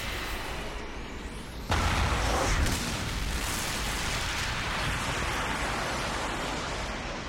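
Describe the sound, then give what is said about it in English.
A massive explosion as a building shatters: a sudden loud blast breaks in after a short, quieter lead-in, then settles into a sustained rumbling roar of debris that slowly eases off. “Mewtwo surges with power, and the Team Rocket building shatters in a massive explosion.”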